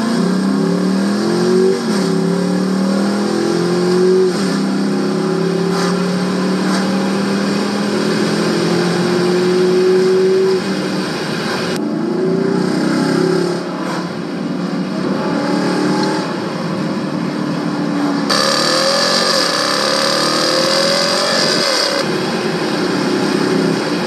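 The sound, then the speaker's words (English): Loud, steady engine drone from a Durango RT with a mid-muffler delete, cruising on a highway. Its low harmonic tones drift gently up and down as the revs shift, over constant road noise, with no talking. “I'm on a highway now, it's like nothing is, it's quiet, just like it was before. I think I'm in love. Sheesh. All right, let me go do some more driving.”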